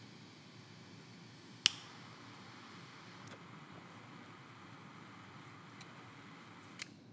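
A cigar is clipped with a cigar cutter, giving one sharp snap followed by a few much fainter clicks against near silence.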